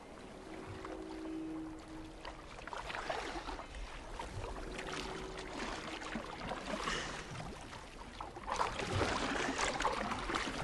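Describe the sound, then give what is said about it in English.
Rowing a boat through foggy water: faint, steady splashing and swishing that grows louder near the end. “It's hard work for Theo. The boat disappears into the fog.”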